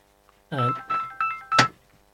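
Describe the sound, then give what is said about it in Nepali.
Telephone ringing in a radio studio during a Nepali-language programme, four short electronic tonal bursts in quick succession over a near-silent background, the last one slightly louder. “यो जोस यहाँ बिचमा बोल्दा बोल्दै phone पनि आयो होइन, sorry माफ गर्नुहोस् श्रोताहरू, हाम्रो यो स्टुडियोमा त्यस्तै छ, कहिले काहीँ अब फोन आउँछ होइन”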